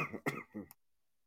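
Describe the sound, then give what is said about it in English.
A short, partly stifled cough comes in a few quick, rough bursts at low volume, then gives way to silence. “sorry about that. I had to cough. I was trying to catch it before I did it.”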